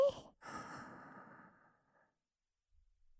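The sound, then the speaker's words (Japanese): Deep relaxation breathing: a short breath followed by a long, slow, airy sighing exhale that gradually fades into near silence. “もう一回、深呼吸しよう。吸って、”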